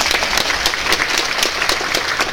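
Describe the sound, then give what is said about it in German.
An audience gives loud, steady applause for the contestants of a points-based competition, with dense, rapid clapping throughout. “Da darf man schon mal sagen, da haben wir einen riesen Applaus für die Kandidaten.”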